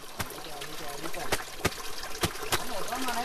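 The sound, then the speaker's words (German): Brook water trickling as an indigenous Kogi woman in Colombia washes laundry, beating a shirt with a stone; several sharp slaps cut through the steady running water. “In einem Bach wäscht eine Kogi-Indianerin Wäsche. Mit einem Stein klopft sie auf ein Hemd, um den Dreck zu lösen.”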